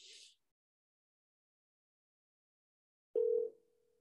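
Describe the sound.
A single short ringing tone on an outgoing phone call, heard near the end after a brief hiss and a long silence, followed by a faint lingering hum; quiet overall.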